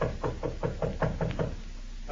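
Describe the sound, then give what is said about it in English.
Knuckles rap on the door of a room in a large New York hotel: a quick, even series of several knocks, moderately loud, followed by a short stretch of quiet. “Jimmy raises his good arm to knock on the door of room 302, then pauses.”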